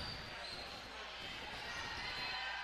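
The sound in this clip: A basketball is dribbled during a women's game between Greene County Tech and Mount Tom: repeated dull, low bounces over a steady, noisy background.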